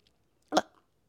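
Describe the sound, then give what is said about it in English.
A single loud, gulping swallow from a person: one short throaty event in otherwise near silence. “Do you swallow loudly every time?”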